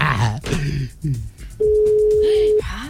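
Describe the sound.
A telephone tone while a number is being dialed. Voices talk first, then a single steady, mid-pitched beep holds for about a second before the sound drops away.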